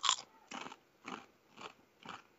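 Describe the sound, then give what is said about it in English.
Crisps being eaten: five crisp, crackly crunching bites at an even pace, about half a second apart, each a short dry burst with quiet pauses between. “To the sound of crisps being eaten,”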